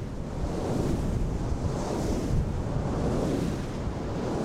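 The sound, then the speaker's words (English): Strong wind at a wind farm of ninety large Danish-made three-blade turbines on 300-foot towers: a dense, loud, continuous roar with gusting surges and low buffeting rumble, with no voices. “ninety huge Danish made Vesta turbines capture the wind here.”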